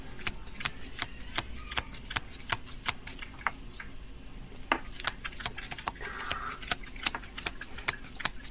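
Playing cards being shuffled, giving many quick, crisp flicks and snaps in a fairly steady, brisk rhythm over a faint background, without speech.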